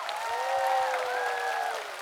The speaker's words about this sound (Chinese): 来给我们彤彤和乐队掌声，谢谢三位年轻人。